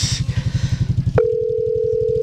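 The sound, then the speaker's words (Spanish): Tone of a telephone call ringing unanswered: a steady, single-pitched electronic tone cuts in partway through and holds to the end, over a low, rhythmically pulsing rumble that runs throughout. “Ahí le está sonando Miriam Maecha, pues creo que otra que no va a contestar.”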